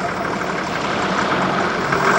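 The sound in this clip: A vehicle engine runs steadily as a car drives forward through large metal gates. The rumble is continuous and even, with no voices, and grows slightly louder at the very end.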